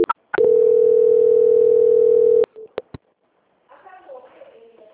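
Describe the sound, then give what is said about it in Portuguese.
A steady, loud telephone line tone plays while a call is being transferred, holding one pitch for about two seconds. It cuts off into a few brief clicks, and voices start faintly near the end. “só mais um instante que eu vou transferir a ligação para o controle de qualidade”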